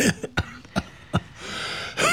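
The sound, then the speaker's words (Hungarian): Several dry, sharp coughs from a patient in a cold house, spaced unevenly and fairly loud over a constant background hiss, with no talking between them. “Köhögjön? Hadd adjak magának orvosságot.”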